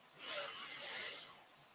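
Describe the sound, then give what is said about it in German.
A deep breath drawn in during a guided meditation: one long, airy inhale lasting about a second. It is soft and breathy, and no talk is heard. “Atme tief ein und füll deine Lunge.”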